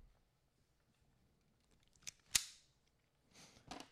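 A single sharp pistol shot cracks out, faint against near silence. A few softer clicks and clacks come before and after it.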